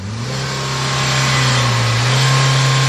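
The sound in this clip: A car engine revs as the driver presses the gas pedal during a roadside exhaust emissions check. The engine makes a loud, steady drone that rises slightly in pitch and grows a little louder toward the end.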